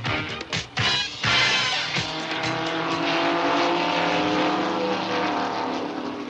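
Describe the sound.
Stock race cars of a Midwestern racing club roar around a speedway at Daytona Beach, with a few sharp bursts at the start giving way to a loud, sustained engine drone.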